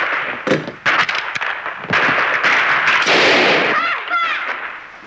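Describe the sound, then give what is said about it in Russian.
Gunfire from a film scene in which one character shoots another, in Eternal Call: sharp cracks and bangs scattered through a loud, busy soundtrack, with brief tonal, voice-like sounds near the end. “Федор стреляет Зубова.”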